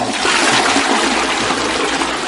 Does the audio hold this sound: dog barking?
no